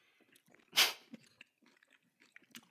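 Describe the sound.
Someone biting into salad with dressing and chewing it: one crisp, crunchy bite followed by faint, scattered smaller crunches.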